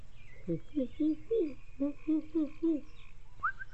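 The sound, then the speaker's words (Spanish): A nocturnal bird calls at night from a tree: a quick series of about eight short, low hooting notes in bursts, then one brief higher call, over a steady faint low background. “¿qué es ese ruido? Yo creo que es un ave. Tranquilos, amigos, eso es normal. Alguna ave nocturna.”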